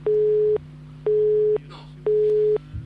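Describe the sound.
A telephone busy tone sounds after a phone line drops during a call: three identical steady beeps, evenly spaced and equally loud, over a low constant hum.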